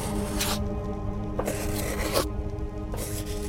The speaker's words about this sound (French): Très vite, le crayon se met à bouger. Puis, dans un mouvement fluide et rapide, il se met à écrire.